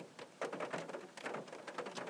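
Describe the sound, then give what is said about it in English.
Rain trickling down a car windscreen, a faint, steady, soft patter with no other sounds. “The rain trickles down the windscreen.”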